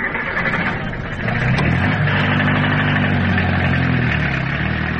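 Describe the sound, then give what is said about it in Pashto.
A taxi car's engine running at idle, a steady, loud, low mechanical hum with rumbling harmonics that holds even throughout, with no talking. “راځه ما ته ټیکسی نیولی دی، یو ځای به سره لاړ شو.”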